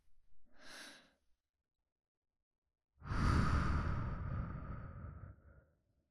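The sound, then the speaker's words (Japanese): Slow breathing during a guided relaxation exercise: a short, soft inhale, then about two seconds of silence before a long, loud, drawn-out exhale that fades away. “ほら、息を吸って、一旦止めてゆっくりと息を吐く。”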